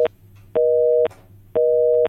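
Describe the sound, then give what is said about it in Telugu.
Telephone busy tone after a call is cut off: two steady, loud electronic beeps of equal length, separated by even gaps, with a brief tail of a beep at the start. “మరి శ్రోత call అయితే cut అవుతుంది.”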